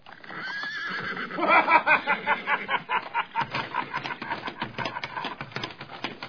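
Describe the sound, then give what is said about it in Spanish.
A white horse neighs in a loud, drawn-out whinny that breaks into rapid quavering pulses, which gradually weaken over several seconds. “al escuchar el relincho del caballo blanco”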